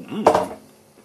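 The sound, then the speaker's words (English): A knife thrown down onto a table next to a microphone gives a single sharp metallic clatter that rings briefly and fades. “Why not throw that knife? Why just place the knife down when you can throw it down on the table next to the microphone?”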